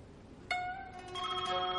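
A telephone rings with a clear electronic tone that starts abruptly after a short silence and holds as a steady, layered chime for over a second.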